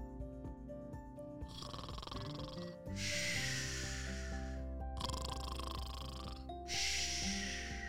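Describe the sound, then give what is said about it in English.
Parents snoring while asleep: repeated loud, rasping snores alternate with breathy snorts in a slow rhythm over a soft tonal music bed. “That was the sound of her parents sleeping.”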